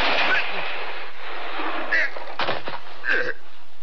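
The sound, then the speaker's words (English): Gunfire in a dramatized showdown between two men: sharp, sudden cracks cut through tense surrounding sound, with people speaking around them. “But I didn't draw. I shot him.”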